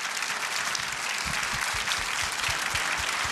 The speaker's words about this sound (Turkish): Kocaman alkışlarınız bizlere de moral olacaktır.